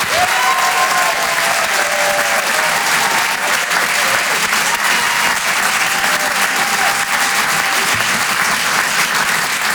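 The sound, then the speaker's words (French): Audience applause for a comedian arriving on stage: dense, steady clapping from a crowd that holds at a loud, even level for the whole stretch without fading. “On peut l'encourager, faites du bruit s'il vous plaît pour Wari Nichen.”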